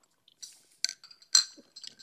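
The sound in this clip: Glasses clink together in a toast over drinks, with a couple of bright, ringing taps and a few lighter ticks between them. No one speaks.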